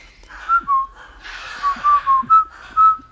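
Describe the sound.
Soldiers whistling a tune in a war film: a string of bright, clear whistled notes in a lilting rhythm, with faint breathy noise between the phrases.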